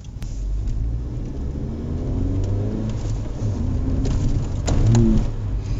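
Car engine revving in sport mode with the clutch in during a downshift, the car adding an extra rev on its own; the engine note climbs in pitch over a steady rumble and grows loudest near the end.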